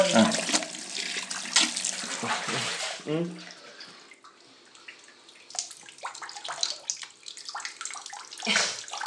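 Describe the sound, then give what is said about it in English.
A person trickles hot water from their mouth to imitate someone urinating. An uneven stream splashes and runs, thins out to a sparse dribble midway, then gathers strength again. “So it does sound very like yeah, a man going to the toilet. Or a woman.”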